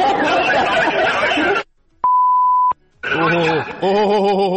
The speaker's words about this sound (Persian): بوغو شنیدی؟ بوغو شنیدی؟